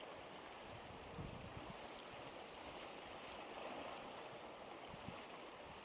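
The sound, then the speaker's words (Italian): Small sea waves washing in and out: a quiet, continuous hiss of moving water with soft low surges rising and easing back. “Viene avanti con le sue ondine, rumorose, gratta qualcosa e torna indietro. Torna alle sue profondità.”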